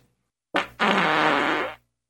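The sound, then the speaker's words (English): A fart-like stomach noise recorded close to the microphone in a closed studio: a short, loud burst, then a longer, dense, raspy rumble lasting about a second before cutting off. “That was my stomach. And now, in a closed studio, too close to the microphone, it's a fart.”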